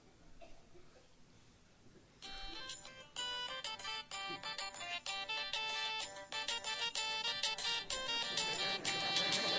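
A mobile phone ringtone begins after about two seconds of low noise. Its bright, busy melodic pattern plays on steadily and grows slightly louder toward the end.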